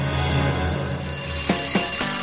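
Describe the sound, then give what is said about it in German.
A toy alarm clock ringing with a sustained electronic tone, loud and continuous, with three sharp, evenly spaced clicks near the end. “Ein Buzz Lightyear-Wecker riss den 10-jährigen David Stadler aus dem Schlaf”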